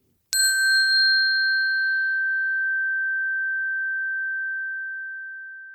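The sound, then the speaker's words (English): A single chime marks the end of one invitation and the start of the next on a guided sensory walk. It is struck once, and a bright, pure ringing tone sustains alone, fading slowly over about five seconds. “I'll be using this sound throughout the walk to mark the end of one invitation and the beginning of another. So if you feel like taking more time with an invitation, just press pause at the sound of the chime”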